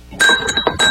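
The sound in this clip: Spoon stirring in a cup, knocking against the sides in a quick run of bright, ringing clinks with a sustained glassy tone, loud and without talk.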